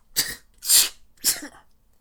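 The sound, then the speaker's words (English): A man sneezes three times in quick succession, set off by a strong stench. Each sneeze is a sharp, breathy burst with short pauses between them. “He sneezes rapidly, repeatedly.”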